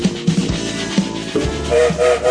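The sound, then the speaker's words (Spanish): A train departing and getting under way: heavy rhythmic chugging and clanking pulses, followed near the end by a loud whistle or horn sounding over continued rumbling motion. “Largó el tren, ¿eh? Ya está en movimiento, se mueve.”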